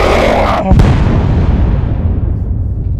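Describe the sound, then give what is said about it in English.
Explosion of a factory being bombed: a loud, sharp blast hits over an already roaring background and is followed by a long rumbling decay that slowly fades away. “Oh, they bombed that. Did you see that? They just bombed that factory.”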